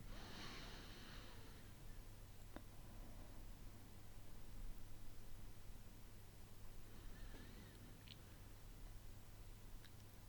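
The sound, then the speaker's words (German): Faint breathing in through the nose and out through the mouth during a calm breathing exercise. A few soft breaths rise briefly over a steady low hum and hiss. “nimm einmal drei tiefe Atemzüge durch die Nase ein und den Mund wieder aus.”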